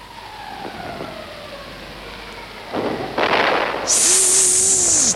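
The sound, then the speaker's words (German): Shrapnel shell exploding as a war radio-play effect: two broad, roaring noise bursts build up, then a sustained high-pitched whine sounds over the noise alongside a lower tone that dips and rises. “Das war eine Granate. Nein, das war ein Schrapnell.”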